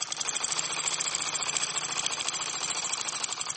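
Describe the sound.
Fast, steady rattling of a sewing machine stitching clothes at a secondhand clothing market, a rapid even pulse of mechanical clicks throughout, fairly faint, with no talk.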